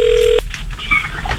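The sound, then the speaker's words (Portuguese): Touch-tone dialing of a telephone number: one steady, clear beep lasting about a third of a second, followed by quieter, muffled background sounds. “Vamos ligar pro Alexandre Peixe.”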